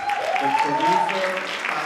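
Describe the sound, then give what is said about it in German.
Applause breaks out after the premiere of an Iranian feature film in a cinema in Berlin. Dense, steady clapping fills the whole clip at an even level, without clear pauses. “Erst dann, einige Sekunden verzögert, bricht der Applaus los.”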